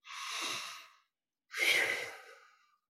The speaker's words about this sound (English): And begin by simply taking a few deep breaths as a way of settling into the body. And don't be afraid to really breathe deeply. 2 or 3 times.